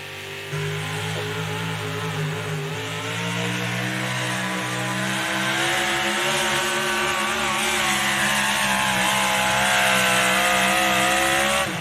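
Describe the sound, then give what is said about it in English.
Roar of a 650 cubic inch pulling engine at an NTPA pulling event: a loud, steady, harmonic-rich drone whose pitch wavers slightly while the volume slowly builds toward the end. “That's one of those little 650 cubic inch motors coming out of the NTPA.”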